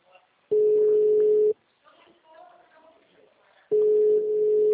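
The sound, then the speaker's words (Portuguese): Steady mid-pitched telephone line tone plays while a call to a municipal culture office is transferred. Two long unbroken tone stretches are separated by a quieter gap of faint sound, and the second tone continues to the end. “Vamos transferir a sua ligação.”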